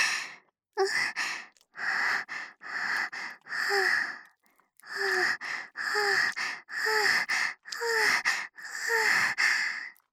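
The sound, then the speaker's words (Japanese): Heavy, rhythmic breathing from a woman, with many voiced, breathy exhalations in a steady panting pattern at an even pace. Each breath carries a slight falling pitch, and there are no spoken words. “ほら、息遣いも聞こえるでしょ。”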